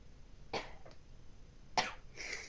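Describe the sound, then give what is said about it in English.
Sneezing: a few short, sharp bursts of breath separated by quiet pauses, fairly faint, with no talking. “That was a sneeze, but I'm so cautious, even sneezing on camera, where I clearly can't, like, get you sick. And that was just a sneeze to clear my sinuses.”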